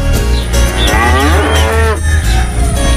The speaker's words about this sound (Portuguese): Seu Durvalino já tá ordenhando as vaquinhas.